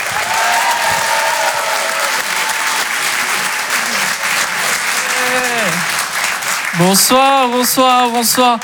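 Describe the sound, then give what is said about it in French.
Audience applause and cheering for a comedian at a live comedy club show: dense, steady clapping for the whole clip, with whoops and shouted cheers rising over it toward the end. “Faites du bruit s'il vous plaît pour Ilyes Mella.”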